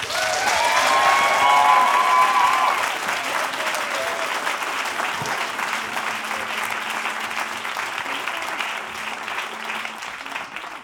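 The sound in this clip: Warm audience applause welcomes the folk band Aagut onto the stage for a set of Occitan music. Dense, steady clapping runs throughout, slightly fuller in the first few seconds.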